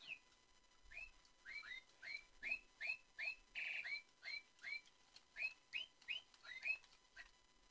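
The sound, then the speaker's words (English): Bird chirping in a room: many short, rising whistled notes repeated in a quick, steady rhythm, fairly faint, with no talk. “sorry about that. I had to shut this bird up.”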